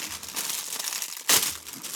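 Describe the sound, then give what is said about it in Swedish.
Crinkling plastic as a bag is opened around a cardboard tray of organic vine tomatoes from Holland; a steady rustle runs throughout, with one sharper, louder crackle about two-thirds of the way in. “Här öppnar jag en plastpåse och i plastpåsen finns en pappbacke och här står det ekologiska kvisttomater från Holland”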